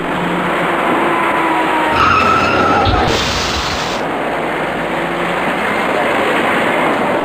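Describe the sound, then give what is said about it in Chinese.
Tires skid hard as cars brake at a city intersection near the south gate of Chaoyang Park, where a white car stops for a yellow light and a taxi and a dark car run into it. A loud, noisy roar of traffic runs throughout. “一看前方路口里的交通信号灯变为黄灯，这辆白色小客赶紧停住脚步，可他后面的一辆出租车却撞了上来，而后又有一辆深色小客追撞上出租车”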